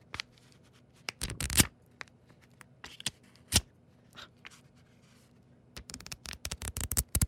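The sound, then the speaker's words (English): Riffling flutter of a pad of sticky notes being fanned, heard as short papery bursts at irregular intervals, mostly quiet, with scattered gaps early on and a quick run of flicks packed together at the end. “So I have a pad of sticky notes. I'm going to fan the sticky notes.”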